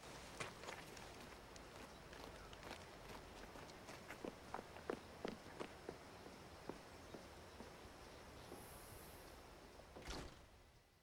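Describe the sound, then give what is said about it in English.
A woman's jogging footsteps sound as a long series of quick, light footfalls in a steady rhythm, faint throughout. “She hands them through the window, then jogs away.”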